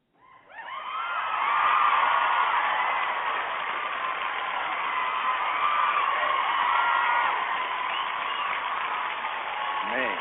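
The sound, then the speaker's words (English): An adoring crowd cheers, whoops and screams, the noise swelling over the first two seconds into a loud, sustained roar of many voices that holds steady to the end. “sound of an adoring crowd bringing us back from break.”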